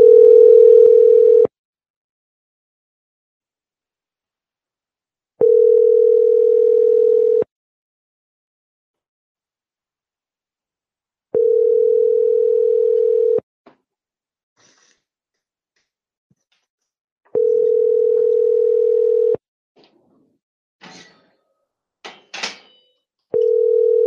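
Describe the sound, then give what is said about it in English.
A telephone ringback tone plays while a Hangouts call is being placed. Five bursts of a steady, low, two-second tone are separated by roughly four-second silences, with a few faint clicks just before the last burst. “It's hard to get Hangouts to dial sometimes.”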